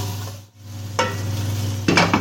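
Mushrooms and broccoli fry in a pan with a quiet sizzle over a steady low hum, and a couple of sharp stirring scrapes cut in during the second half.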